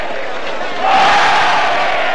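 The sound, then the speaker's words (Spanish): A bullfight audience cheers enthusiastically, a broad crowd roar that swells noticeably louder partway through and stays strong to the end. “Gira frente al toro dominándolo. El público aplaude entusiasta.”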